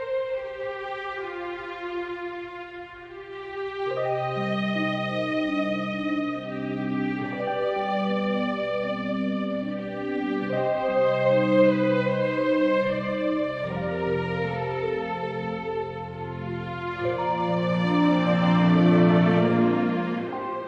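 Orchestral title theme from an Italian composer's score for a shocker thriller film, with slow sustained chords and a lyrical melody that steadily swells and grows fuller toward the end.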